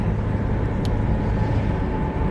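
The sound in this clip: Steady road noise from a car driving home: a constant low rumble and hiss that stays even throughout, with no talk.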